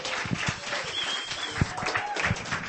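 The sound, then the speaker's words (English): An audience at a reading applauds a performer with dense, steady clapping that holds at an even level for the whole stretch. “Ladies and gentlemen, give him a hand. Please do that.”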